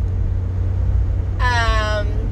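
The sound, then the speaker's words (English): Steady low road rumble fills the interior of a moving car, with a brief harmonic tone rising above it in the second half. “I am currently driving and trying not to die and record this podcast”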